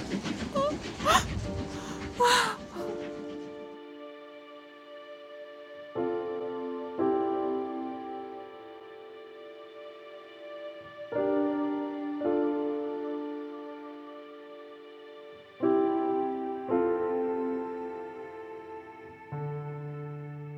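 A steam train at a railway station: a loud, noisy burst opens, then long steady tonal drones follow and shift in pitch several times.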